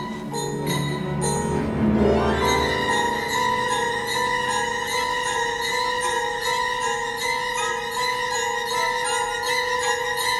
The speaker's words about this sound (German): wie die Klingel anfing, sich zu bewegen. Erst so wenig, dass sie kaum einen Ton von sich gab, aber bald schellte sie laut. Und mit ihr jede Klingel des Hauses.